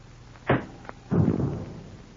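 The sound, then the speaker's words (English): A tear gas bomb tossed in through a door: a sharp knock and a small tick, then a heavier thump followed by a spreading hiss that slowly fades. “I got a tear gas bomb here. I'll toss it in through the door.”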